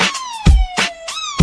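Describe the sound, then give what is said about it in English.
A police siren wails in a steady, slightly falling tone that jumps back up partway through, loud over heavy, regular low thumps. “That mean the cops is coming, nigga. You better get to running, nigga.”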